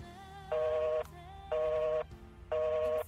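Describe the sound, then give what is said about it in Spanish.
Telephone beeps follow a cut-off call: three evenly spaced, half-second tones repeating about once per second, loud and clear over a faint background hum. “y necesitaba chequear con las chicas de nuevo lo anotado, la llamada se cortó.”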